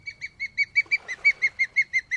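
Osprey call: a rapid, evenly spaced series of high, clear chirps, repeated many times in a steady rhythm. The calls are fairly loud, with no talk.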